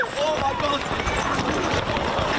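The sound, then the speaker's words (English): A crowd running into the Oktoberfest festival grounds in Munich, rushing for spots at the beer tents: a dense, steady clatter of many pounding footsteps with a voice talking over it. “chaos as crowds ran into the festival grounds just to get a good spot for this year's Oktoberfest, a good spot at beer tents.”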